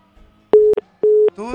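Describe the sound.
A telephone tone after a dropped call: two steady, mid-pitched electronic beeps separated by a short silence, followed by the start of a voice at the end.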